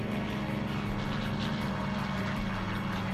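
A propeller airplane drones loudly during a bouncing stunt landing, its engine a constant, even roar with a low hum. No separate touchdown impacts stand out.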